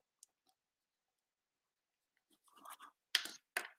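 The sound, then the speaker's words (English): Handwriting scratches across a surface as someone writes a name down. A faint click comes first, then after a long pause a few scratchy strokes build up, ending in two sharper, louder scrapes. “I was trying to write it out. I spelled coach wrong as soon as I wrote it down.”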